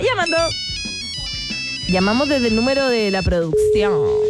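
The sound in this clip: A melodic electronic ringtone plays as a phone call is placed to a DJ, loud harmonic tones stepping between pitches and ending on one sustained note.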